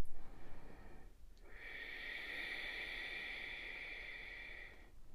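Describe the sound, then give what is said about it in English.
A deep breath during yoga practice, heard as a long, airy exhale with a slightly raspy, throaty hiss lasting around three seconds, alone and fairly faint. “Set your attention on your drishti, where are your eyes? Where's the focus of the mind? Two more breaths.”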